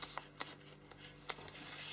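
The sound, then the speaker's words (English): A sheet of paper is bent and folded along a crease, giving faint rustling with a few short, sharp crackles spaced irregularly. “just on the next layer of paper. So I'm just going to take this, I'm going to bend it, and then I'm just going to fold along that crease line.”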